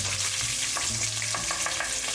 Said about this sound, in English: as you can hear, the tomato paste is cooking and caramelizing